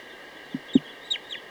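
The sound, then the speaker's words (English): A chicken clucking: four short, quiet clucks spread over about a second and a half against a steady faint background hum. “Good time for a test of bird 238.”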